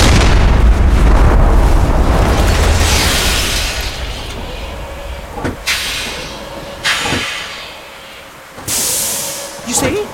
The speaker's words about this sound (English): The grenade exploded.